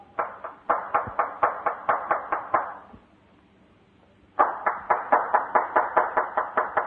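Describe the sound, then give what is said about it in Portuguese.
Insistent hand clapping at the front door of a farm residence: two quick runs of sharp, evenly spaced claps separated by a pause of over a second, the second run as brisk as the first. “Depois de bater insistentes palmas, foi que se abriu a porta da entrada”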